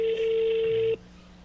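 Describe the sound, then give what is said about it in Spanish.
An outgoing telephone call placed from Tecate, ringing as a steady electronic tone with a faint lower hum. The tone lasts about a second, then cuts off abruptly into quiet line noise. “Bueno, a ver. Ahí va la llamada.”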